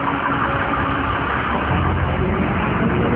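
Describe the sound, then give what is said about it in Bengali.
Steady engine rumble of a bus arriving at a bus stand in the evening, a continuous mid-pitched drone with no clear breaks. “একটু পরেই বাস চলে আসে।”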